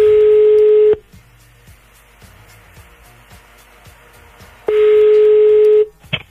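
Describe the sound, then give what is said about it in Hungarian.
Telephone tones sound as a call is placed to a listener: a loud, steady tone lasting about a second, a quieter stretch of faint line noise, then the same steady tone again. “Hívjuk a naphallgatóját.”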